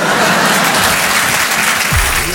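Audience applause at a comedy show, dense and steady, fills the whole stretch without a break and stays loud from start to finish.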